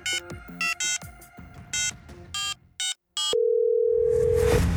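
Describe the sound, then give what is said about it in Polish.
Telephone tones from a call placed in an air-conditioned café: a series of short, bright dialing beeps, then a single long steady tone with a hiss of background noise. “Z klimatyzowanej kawiarni przy ulicy Wolności Kenrich zadzwonił do Zawalnego.”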